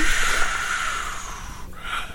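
Deep breaths drawn in by a few people, heard as a steady airy rush lasting about two seconds, with a short break before a final breath near the end.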